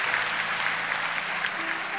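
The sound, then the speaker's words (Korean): A church audience applauds two performers after a cello and piano piece, a dense, even wash of many hands clapping that holds steady at moderate loudness for about two seconds, with no talk over it. “우리 박수로 축복하고 격려하겠습니다.”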